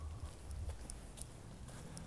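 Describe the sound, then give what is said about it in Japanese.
Footsteps walking along a city street near Iidabashi in Tokyo, faint clicking steps in a loose rhythm set against a steady low wash of street noise. “今街中を歩いております”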